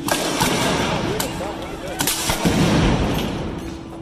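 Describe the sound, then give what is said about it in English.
Flashbang grenades and tear gas fired by federal officers at protesters in Portland, Oregon: a few sharp bangs cut through a constant roar of crowd noise, with shouting voices throughout. “Federal law enforcement officers again fired flashbang grenades and tear gas at protesters in Portland, Oregon last night.”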